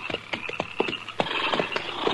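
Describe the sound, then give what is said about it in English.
Hoofbeats of horses being pulled up on the prairie make many quick clip-clop strikes in an irregular, busy rhythm at moderate loudness. No one speaks. “All right, hold it. Pull up them horses.”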